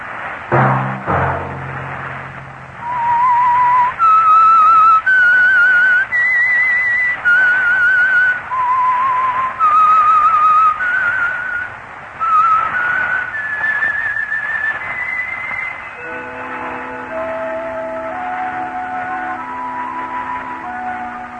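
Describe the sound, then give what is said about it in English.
A whistled signal tune: a loud, clear solo melody of many held notes stepping up and down, ending on a run of lower, softer tones. “That whistle be your signal for the Signal Oil program, The Whistler”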